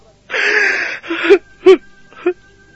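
A man sobbing and crying over his miserable fate: a long, strained wailing breath, then three short, choked gasping sobs with quavering voiced edges, loud and alone.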